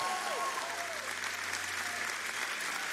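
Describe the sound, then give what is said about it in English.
An audience applauds to welcome a speaker: dense, even clapping fills the whole clip with a steady wash of sound at constant loudness. “So Substance, would you please stand to your feet and give a warm Substance welcome.”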